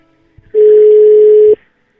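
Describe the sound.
A telephone ringback tone heard while waiting for someone to answer a call: a single loud, steady, flat tone lasting about a second, ending abruptly.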